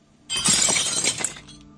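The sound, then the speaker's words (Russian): A glass window shattering: one loud, bright crash that sustains for about a second with crackling, clinking fragments before cutting off, with no voices. “Вдруг, слышу, стекло разбилось.”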